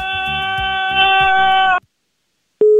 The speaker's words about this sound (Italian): Ma perché buttano giù? Io non capisco.